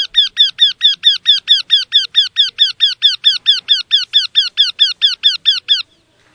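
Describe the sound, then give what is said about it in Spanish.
Recorded bird call played for identification: a fast, even series of many identical harsh, high notes, about four per second for nearly six seconds, then it stops abruptly. “vamos a escuchar de nuevo el ave. Ahí está.”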